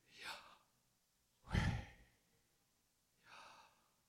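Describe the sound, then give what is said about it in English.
Three separate breaths in and out, soft and airy with a sighing quality, the middle one the loudest and fullest, separated by quiet pauses with no talk. “what I've learned recently is that it's actually, it can be the sound of your breathing.”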